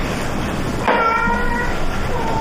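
A cat meowing: one drawn-out, fairly faint cry rising out of a steady background hiss.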